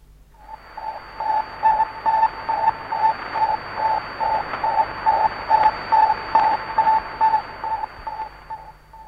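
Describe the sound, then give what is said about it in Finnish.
Radio beeping from the earlier Sputnik satellite: a long run of short, evenly spaced tone pulses at a steady pitch over a bed of static hiss, repeating at a regular pace throughout. “Ja kuunnellaanpa vielä kerran edellisen Sputnikin piipitys.”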